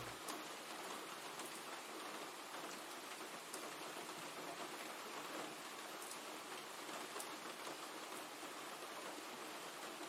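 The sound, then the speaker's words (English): Rain coming down in a steady, even hiss with scattered ticks of drops, faint and continuous throughout, with no voices. “You're too busy looking up at the rain coming down.”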